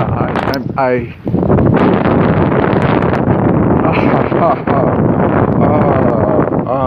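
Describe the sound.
Strong wind buffets the microphone in a loud, steady, roaring rush, with a voice heard briefly near the start.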